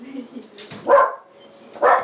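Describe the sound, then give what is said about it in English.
A dog gives two sharp barks about a second apart, with faint talk around them. “He's barking.”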